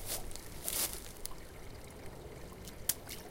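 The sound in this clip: A pine cone drops into water, making a few soft, faint splashes and plops over a quiet watery background hiss.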